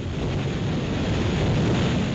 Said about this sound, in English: That is the roaring wind in New York Harbor this morning